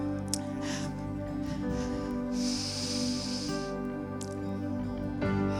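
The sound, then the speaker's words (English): Deep breath drawn in during a worship prayer: a hissing rush of air lasting about a second, heard over sustained musical chords. “Just breathe him in. Take a deep breath.”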